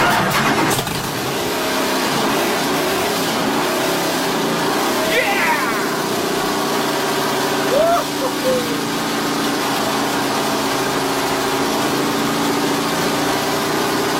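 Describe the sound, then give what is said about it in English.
A McLaren Can-Am race car engine starts up and runs, its dense, loud roar holding steady for the whole stretch. “This is actually a recording of Bruce McLaren's Can-Am firing up. Just listen to the very start and you'll hear this very unusual noise.”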